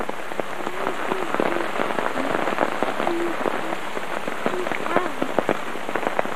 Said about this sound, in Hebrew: גשם שוטף.